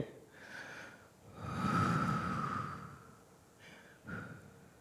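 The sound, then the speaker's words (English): Deep, slow breaths taken during a guided breathing exercise: a few soft, airy inhales and exhales, one longer swelling breath in the middle, quiet and alone with no talk. “Take a deep breath. And again.”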